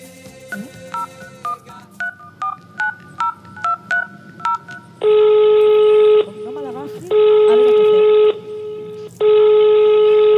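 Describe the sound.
A telephone number is dialed on a touch-tone phone: a quick series of about ten short, clipped beeps, followed by three long, steady ringing tones separated by brief pauses.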